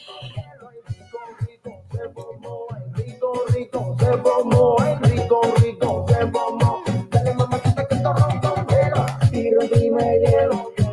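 A song plays with a sung vocal over a steady beat, starting quiet and sparse, then turning loud and full after a few seconds, with regular punchy percussive hits.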